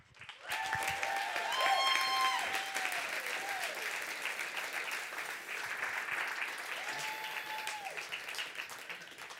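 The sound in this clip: Audience applause welcoming a senior high student to the stage at a church gathering: loud, sustained clapping that starts quickly and holds steady, with a few brief tonal whoops near the start.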